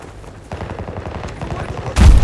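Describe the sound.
Rapid gunfire in a first-person shooter video game, heard as a fast run of sharp, repeated shots followed by a sudden louder burst at the end.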